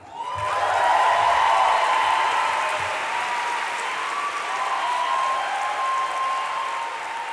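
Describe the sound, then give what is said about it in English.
Sustained applause from an audience at the Webby Awards ceremony, cheering the artist Mr. Wash. The dense, loud clapping rises quickly and holds steady for about seven seconds. “Perhaps the biggest applause of the night was for the artist Mr. Wash, who was wrongfully imprisoned for 21 years before being granted clemency by President Obama.”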